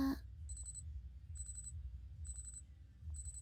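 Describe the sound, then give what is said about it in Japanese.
An electronic alarm clock rings in four evenly spaced bursts of high, piercing beeping, the last one cut off, over a faint low hum with no voices. “うん、アラーム鳴っちゃいましたね。”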